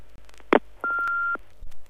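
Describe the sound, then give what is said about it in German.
An answering machine starts playing back a message with a couple of sharp clicks, a short burst and then a steady mid-pitched beep held for about half a second, followed by more faint clicks. “Antiquarisch haben wir uns auch einen Anrufbeantworter zugelegt. Ich schau mal. Er blinkt. Moment.”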